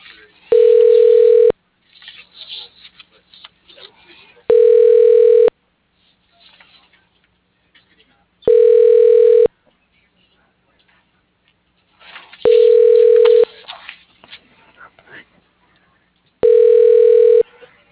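Telephone ringback tone while an automated directory connects a call to an office extension: five steady, evenly spaced rings, each about a second long, separated by quiet gaps, with a thin, band-limited phone-line quality.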